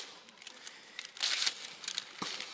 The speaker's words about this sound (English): This is a gift for the both of you. All right. And I'll let you open it first, and then I'll explain it here. All right. Just rip that bad boy open.